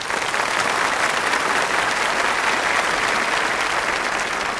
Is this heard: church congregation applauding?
yes